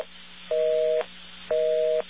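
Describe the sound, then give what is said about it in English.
A typical telephone busy signal: a steady dual-pitched electronic tone pulses on and off in even half-second beats, with two tone bursts over a constant line hiss. “All right, now this is a typical busy signal.”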